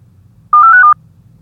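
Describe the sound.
A telephone call signal: one steady electronic beep lasting about half a second, sounding alone over a faint low hum.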